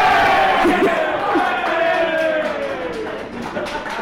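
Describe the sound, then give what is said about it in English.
A crowd cheers and screams in a loud roar of many voices that slowly eases over a few seconds. “I'm not quite sure that was something to cheer about. Oh, right, that's why they screamed.”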